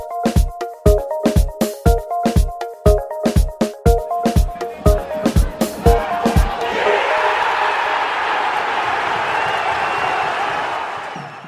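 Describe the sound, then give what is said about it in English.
Football crowd noise at Edgeley Park for the National League match between Stockport County and Torquay: a run of loud, sharp rhythmic beats gives way to a steady, broad roar of the crowd. “Slightly different start this week because we're at the big National League game of the weekend between Stockport County and Torquay. So we're here at Edgeley Park.”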